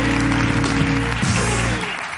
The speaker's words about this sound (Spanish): Un aplauso para Jorge Ponte